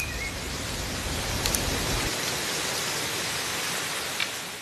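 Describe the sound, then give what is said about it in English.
Heavy rain and wind make a dense, steady roar of hiss, constant and unbroken with no talk. “While I'm talking, the wind is getting heavier and the rain is getting heavier too”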